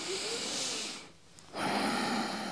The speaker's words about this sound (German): Durch die Nase ein, durch die Nase ausatmen.